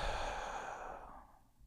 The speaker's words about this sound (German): durch die Nase ein und einen langen Atemzug durch den Mund aus